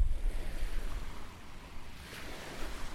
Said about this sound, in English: right now, I'm walking by the beach in my neighborhood, Kalamaiti